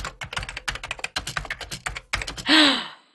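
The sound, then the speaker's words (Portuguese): Rapid keystrokes on a computer keyboard as a Google search is typed, many quick uneven clicks in bursts, ending with a short, loud whooshing tone that fades out. “Eu, eu vou digitar no Google, só um pouquinho.”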